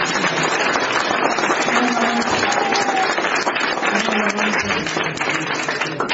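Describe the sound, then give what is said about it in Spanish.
Loud, sustained applause from a church audience: dense, steady clapping that fills the whole clip without a break. “Y den un fuerte aplauso al Padre.”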